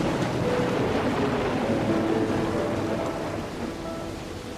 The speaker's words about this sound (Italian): Pioggerellina fitta, alternata a raggi di sole